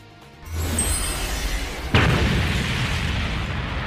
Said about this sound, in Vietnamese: đập mạnh xuống mặt đất. Mặt đất đổ vang, nổ tung thành một cái hố.